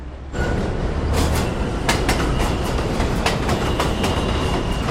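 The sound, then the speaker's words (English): A train pulls into a station platform with a loud, steady rumble that rises suddenly at the start. Rapid clacks of wheels over rail joints and faint metallic whines run through it. “She stands as the train arrives.”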